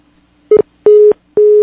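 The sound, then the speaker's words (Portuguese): A telephone line tone sounds after a dropped call: three steady, mid-pitched electronic beeps. The first is short and clipped, and the next two are longer, evenly spaced, with silence between them. “Nós perdemos a ligação com a Karen Alcioli”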